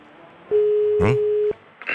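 A telephone call tone heard while phoning someone: one steady, clear beep lasting about a second, with a short vocal sound over its middle and a brief rustle afterward.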